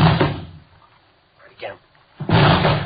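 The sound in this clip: Police officers forcing a locked door open: two heavy, loud crashing impacts, one at the start and one near the end. Quieter voices and scuffling sounds fill the gap between them.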